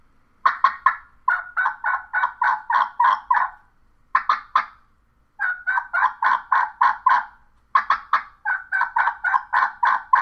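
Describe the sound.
Wild turkey yelps repeat in several series, each a run of sharp, evenly spaced nasal notes separated by short pauses, loud and clear with no talking.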